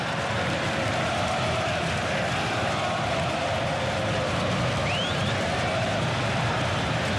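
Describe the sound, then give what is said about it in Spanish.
A Paraguayan football crowd roars at a match against France, a dense, even wash of crowd noise that continues without a break. “escucha el público paraguayo creciendo”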